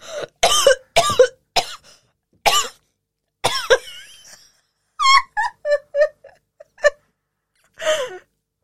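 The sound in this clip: Choking and coughing on a mouthful of juice: many sharp, harsh coughs and gasps in uneven bursts, followed by strained, moaning wheezes and a final rough cough.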